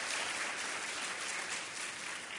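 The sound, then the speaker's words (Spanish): Steady audience applause for the Cardiovascular Commission at a celebration event, a dense, even wash of many hands clapping at moderate volume from start to finish. “a toda la Comisión Cardiovascular les pido un fuerte aplauso porque el éxito es posible gracias a todos.”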